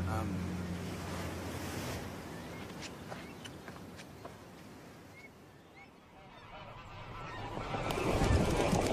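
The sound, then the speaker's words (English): Several geese honk in short, sharp calls as they fly away from a sea wall, set over a steady wash of surf and wind that swells louder toward the end. “The geese are leaving.”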